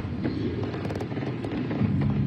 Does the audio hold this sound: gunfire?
yes